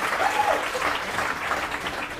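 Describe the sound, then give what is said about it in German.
Audience applause for a performer, a dense and steady wash of many hands clapping that holds at an even level for the whole stretch, with no voices standing out. “Bodo kriegt Applaus. Das ist gut.”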